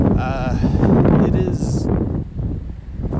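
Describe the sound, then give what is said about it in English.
Wind blowing outdoors, a loud, steady rushing roar with rough buffeting on the microphone that swells and eases slightly throughout. “As you can probably tell, the wind is picking up.”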